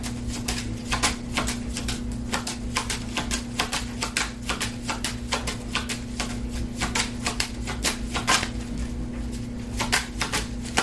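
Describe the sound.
A deck of cards is shuffled during a card reading, giving a long run of quick, crisp riffling clicks over a steady low hum, with no talk.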